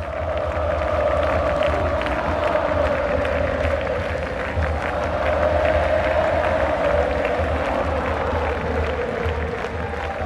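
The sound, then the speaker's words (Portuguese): A large crowd in the Plaza de Mayo, Buenos Aires, cheers for Alberto Fernández at a celebration of the return of Argentine democracy, a sustained roar of massed voices with clapping running steadily throughout. “Ali ele foi ovacionado pelo público.”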